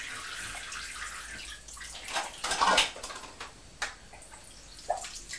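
Water poured to water plants during dry weather: a gushing splash swells for under a second, with softer trickles and small drips before and after.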